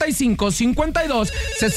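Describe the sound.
A telephone rings for an incoming call on a radio call-in line, a repeating pitched ringing pattern with a voice heard over it.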